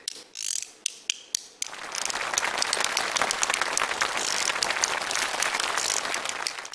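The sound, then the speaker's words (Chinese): Bamboo clappers, two small bamboo boards, are played by hand: a few sharp, separate clacks, then a dense, rapid, loud rattling clatter that continues to the end. “手玉子就两个小竹板儿。你看上面 能打响吗？”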